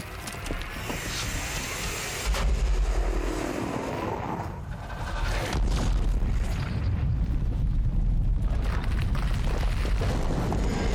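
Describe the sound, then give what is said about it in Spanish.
A mountain crumbling and collapsing in a video game makes a deep, continuous roaring rumble with crashing debris. It is loud throughout and grows heavier in steps after a couple of seconds and again midway. “¡Qué demonios! ¡La maldita montaña se está deshaciendo!”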